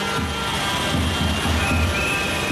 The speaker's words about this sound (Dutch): En zo nemen de boeren met hun tractoren vandaag de zieke straten van Madrid over.